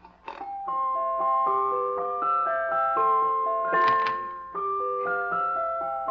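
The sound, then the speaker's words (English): A jack-in-the-box toy plays its tune, a clear, tinny melody of steady, evenly paced notes that are moderately quiet and heard alone. “Well, it's a sort of a jack-in-the-box. Oh. Here, listen to this.”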